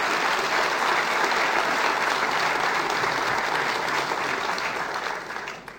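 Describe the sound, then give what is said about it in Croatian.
An audience in Zagreb applauds a city's cooperation with the Croatian government, dense sustained clapping that holds steady before tapering off at the end. “Molio bi jedan pljesak za ovu suradnju.”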